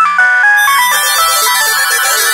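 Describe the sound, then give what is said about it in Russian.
Electronic ringtone melody from mobile phone alarms set to go off at once during a flash mob by a fountain in a Moscow department store. A loud, bright repeating tune of stepped tones plays throughout, with no voices. “По задумке у всех участников должны были одновременно зазвонить будильники на мобильных телефонах.”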